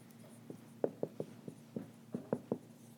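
Eraser rubbing writing off a board in a string of short scrubbing strokes with an uneven rhythm, quiet and alone.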